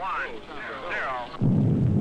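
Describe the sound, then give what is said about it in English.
Rocket blast-off heard over a poor, crackly transmission: a muffled radio voice speaks first, then a sudden burst of loud, low roaring noise takes over for the final half second. “I believe that was the blast off.”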